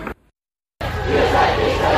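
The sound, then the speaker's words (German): Crowd noise from a street protest blockade facing a police line: a brief burst is followed by a short silent gap, then a dense, steady roar of many voices that continues loudly to the end. “Ihr hört hier im Hintergrund die Blockade, die sich aus Hochheim gelöst hat”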